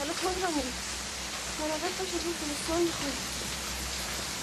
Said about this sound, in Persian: هوا بارونیه.